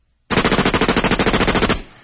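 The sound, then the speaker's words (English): A machine-gun sound effect: one loud, rapid burst of evenly spaced shots lasting about a second and a half, which cuts off into a short fading tail. “But can you take me out machine gun biatch style? Of course I can.”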